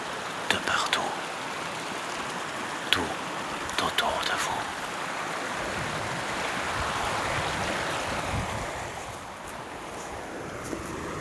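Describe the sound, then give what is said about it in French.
Springs and small mountain streams flow with a steady, broad rushing and gurgling of water, constant in level, with a few brief clicks and splashes near the start. “Des sources, des ruisselets, des goulines.”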